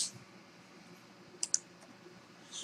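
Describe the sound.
A computer mouse clicks twice in quick succession, sharp and bright, over a faint steady background hum.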